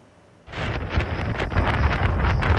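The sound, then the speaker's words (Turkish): Strong sandstorm wind in Rajasthan, India, bursts in suddenly after a quiet opening half second. It becomes a loud, rough, steady rush with gusty surges and no voices. “Hindistan'da kum fırtınası hayatı felç etti.”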